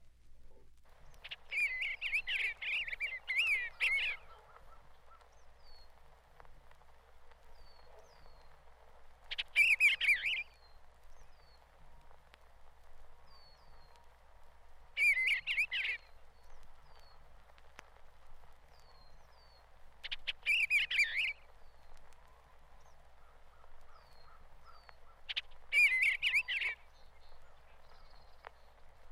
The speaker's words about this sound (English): First, we will hear that harbinger of spring, the bluebird, with his cheerful warble.